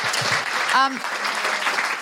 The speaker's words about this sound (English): Before we go, I should have a big round of applause for Melissa.